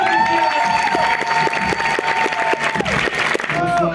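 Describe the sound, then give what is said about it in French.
Festival audience applauding at an award ceremony as a prize is announced: dense, steady clapping with some cheering throughout, a sustained tone running beneath it, and voices in the crowd. “oui, ils sont on là. On applaudit.”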